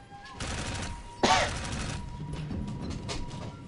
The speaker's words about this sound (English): So how many times do you have to shoot this thing before it dies?